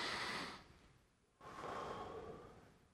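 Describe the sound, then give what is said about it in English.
An audience takes a breath together during a church service: a soft, breathy rush, a brief pause, then a longer steady breath that slowly fades. It is quiet throughout. “will you join me in taking a breath?”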